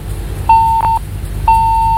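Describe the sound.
A disconnected phone line on a call-in show gives three steady mid-pitched beeps. The second beep is very short and the third is the longest, heard alone without voices.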